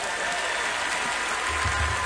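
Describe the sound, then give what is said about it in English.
An audience at the Grand Ole Opry gives a round of applause for the performers, a steady wash of clapping at an even level, with a low thump near the end. “Hey, a round of applause for all the performers you've seen so far.”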